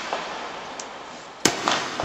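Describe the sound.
Gunshots at a train station in Washington, D.C., in 1881: sharp, cracking bangs that cut through a steady hiss of background noise, with the main crack followed by further short bursts.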